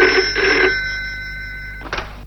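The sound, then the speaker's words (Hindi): A telephone bell rings in a bright, jangling trill that pulses a few times and then fades into a lingering tone, ending with a brief faint jingle. “Dharmdas यानी धर्मात्मा का phone जाता है।”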